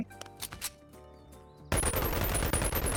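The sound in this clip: Gunfire in a video game: a loud, dense burst of automatic fire that runs unbroken to the end, following a stretch of quieter tonal game sounds.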